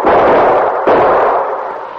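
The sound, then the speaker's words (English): Gunshots ring out in a radio drama set in snowy country, fired to cover two men dashing for a snowbank. Two heavy, booming blasts come about a second apart, each trailing a long, noisy rumble that fades slowly. “Sergeant Preston fired a few shots to cover their movement”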